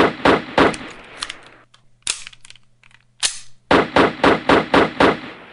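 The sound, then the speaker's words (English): Sharp gunshot sound effects crack out in two rapid volleys of about six shots each, separated by a pause with a couple of isolated clicks; the shots are loud, snappy and evenly spaced. “The gun accidentally went off. It went off 6 times. Then you paused to reload it, and it went off 6 more times.”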